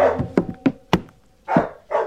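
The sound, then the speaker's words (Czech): A dog barks aboard an overturned ship's wreck, with a few sharp, clipped barks in quick succession followed by two longer, fuller barks, moderately loud with quiet gaps between. “Ten pes nás odtud nechce pustit.”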